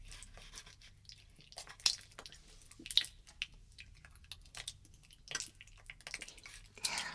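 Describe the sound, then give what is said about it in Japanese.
Wet squishing and dripping as powder is dissolved in water and slowly mixed by hand into an instant lotion, soft irregular squelches and slick smacks, fairly faint and without talk. “これらをこうして水でよーく溶いて、ゆっくりと混ぜて、”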